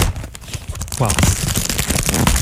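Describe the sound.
Plastic wrapping crinkling as a box of chocolates is opened, a dense crackly rustle running under overlapping voices.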